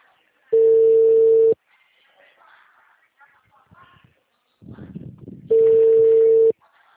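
Telephone ringback tone as a call is placed: two steady, mid-pitched one-second beeps about four seconds apart, with faint murmuring background sounds in the gap between them.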